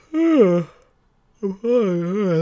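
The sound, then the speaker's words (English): A drawn-out vocal human yawn: a voiced, moaning tone that sinks in pitch, then a short silence, then a longer wavering voiced stretch, fairly loud and alone. “I'm sorry, another yawn take.”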